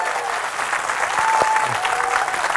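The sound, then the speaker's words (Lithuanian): Applause from an audience welcoming a guest to an evening talk event with a music producer, a steady dense clapping that continues without pause for the whole clip. “Pasitikime plojimais.”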